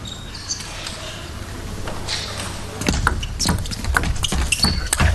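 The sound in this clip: A table tennis ball bounces through a fast rally at a professional match tied 8-8, with many sharp, quick clicking ticks in the second half over faint background noise.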